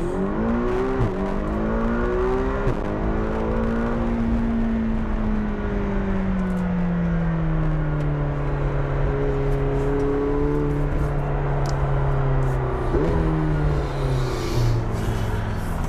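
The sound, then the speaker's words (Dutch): Engine of a McLaren GT sports car driving and accelerating, a continuous loud drone whose pitch climbs, then eases down slowly, before rising again near the end, with no talk. “De rijimpressie. Wouter test de McLaren GT.”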